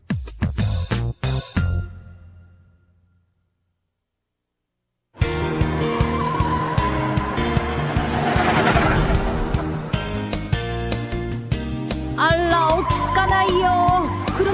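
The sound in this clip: A race car runs at full throttle and then brakes hard, with skidding tire squeal. A burst of sharp, loud hits gives way to a few seconds of silence, and then a long stretch of loud, continuous engine and tire noise follows.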